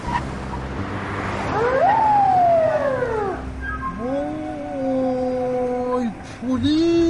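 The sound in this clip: A traffic police car siren wails loudly in steady sweeps, its pitch climbing and falling in long arcs, with a shorter rise starting again at the end.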